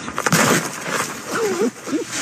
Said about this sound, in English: that's the sound of a musk ox headbutting and crushing a massive pumpkin at the Point Defiant Zoo and Aquarium in Tacoma